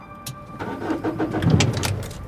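A car engine starting: a short burst of rapid starter cranking that catches and settles into a steady running rumble.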